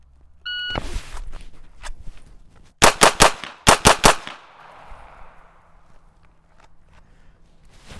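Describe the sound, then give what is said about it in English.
Pistol shots in a timed shooting drill with three rounds on each target: a shot-timer beep and an early report, then two rapid groups of three loud, sharp shots, with quieter stretches between. “So I'm at boat lock, starting position, aimed at the target, transition to pistol, 3 rounds on each target.”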